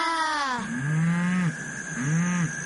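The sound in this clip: A cow lows in a few deep, drawn-out moos with a strong harmonic tone, loud and clear, with short pauses between calls and no talk.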